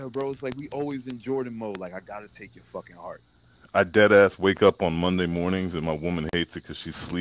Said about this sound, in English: But, like, I'm outside, too, by the way, so you can hear the cicadas singing. Welcome, cicadas. Welcome to the show.